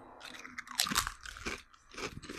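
Lay's honey butter flavoured potato chips crunch in a few crisp bites and chewing sounds, fairly quiet and uneven in rhythm.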